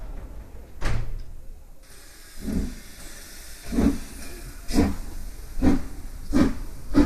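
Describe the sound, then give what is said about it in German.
A steam train departing a station gives a series of soft hissing steam bursts whose intervals grow shorter so the pace gradually quickens, with no voices. “15 Minuten vor 6 traf die Reisegruppe am Bahnhof ein. Train to New York. All aboard.”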